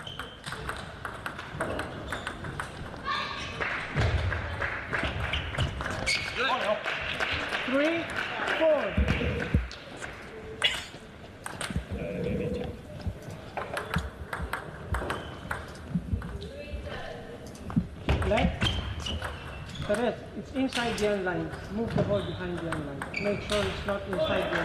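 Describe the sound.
Table tennis ball bouncing during a match: many sharp, quick pings and clicks in an irregular rally rhythm, running steadily beneath continuous commentary.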